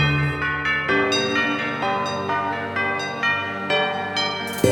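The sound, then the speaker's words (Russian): Church bells ring with a few overlapping strikes, each leaving bright, sustained tones that blend into a steady, fairly loud wash of ringing. “Колокольный звон.”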